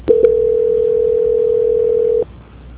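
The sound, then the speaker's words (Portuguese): A telephone tone sounds while a call is being transferred. It is one steady, single-pitched tone that holds for about two seconds, then cuts off and leaves faint line hiss. “Agora tocou, transferindo.”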